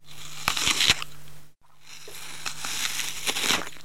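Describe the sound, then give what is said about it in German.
Someone bites into and chews a crisp apple, making a few sharp, wet crunches. A brief silence follows, then more crunching. “Sieh mal, diesen Apfel teile ich. Ich esse eine Hälfte und beiße zuerst hinein.”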